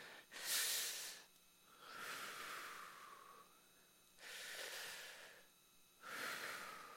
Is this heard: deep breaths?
yes